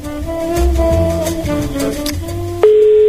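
Telephone tones on an outgoing call to a listener, ending in a loud, steady ringing tone that starts abruptly near the end.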